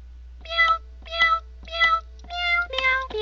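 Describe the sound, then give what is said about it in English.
A human voice imitates a cat meowing: three evenly spaced nasal meows, then several quicker ones that run together toward the end. “meow, meow, meow, meow, meow, meow.”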